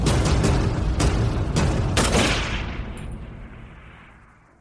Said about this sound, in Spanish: ¿Estás seguro de tu puntería desde aquí? No debes fallar. Ya veremos. No cuesta nada probar un primer tiro.